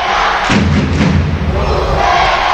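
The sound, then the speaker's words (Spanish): Valladolid (Pucela) fans cheering at a rugby match: a loud, dense roar of voices with heavy low rumbling thuds rising in after the opening half-second and holding steady. “se enciende el público de Pucela.”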